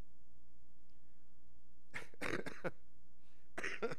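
A few short, faint coughs, one quick cluster and then a single later burst, set against quiet background noise.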